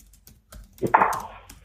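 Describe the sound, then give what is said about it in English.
Typing on a computer keyboard: a few soft, sparse key clicks, then a denser, louder burst of keystrokes. No one speaks. “I'm typing this out so I don't forget it.”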